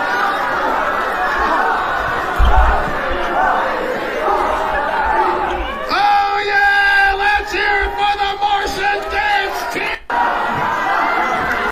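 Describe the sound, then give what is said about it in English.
An audience sings Twinkle Twinkle Little Star together while a dance team performs. Loud crowd chatter comes first, then many voices join in sustained group singing. “And here they are. And they are dancing to everyone in the audience singing Twinkle Twinkle Little Star, by the way.”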